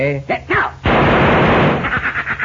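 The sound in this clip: Gunfire rings out as Cisco shoots thrown pieces of adobe: after a man speaks briefly, a loud, harsh burst of rapid shots erupts and lingers in a decaying rumble.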